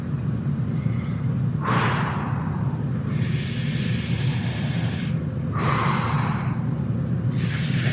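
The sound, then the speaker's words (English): Slow, deep breaths from a person trying to calm down, several long airy inhales and exhales rising and falling over a steady low background hum. “Okay. I'm gonna breathe.”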